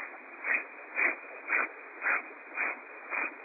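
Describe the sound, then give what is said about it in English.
Breath of fire, the forceful yogic exhale driven by pushing the diaphragm and belly in: six quick, sharp breaths in an even rhythm, about two per second, with no talking. “And there's a cleansing breath, it's called the breath of fire, where you forcibly push your diaphragm and belly in as you exhale. So it sounds something like this.”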